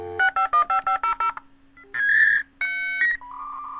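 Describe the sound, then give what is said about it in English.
Dial-up modem connecting over a phone line: a quick run of seven touch-tone dialing beeps over a low steady hum, then a pause and longer, loud, sustained electronic tones as the connection begins. “It's the sound of the early days of the internet, when getting connected to the rest of the world happened over a phone line and with a dial-up modem.”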